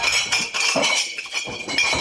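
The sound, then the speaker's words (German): Glasses clinking at the Oktoberfest beer festival: a dense wash of bright ringing chinks and clinks, repeated irregularly over a steady crowd murmur, moderately loud throughout. “Gläser klirren auf der Wiesn.”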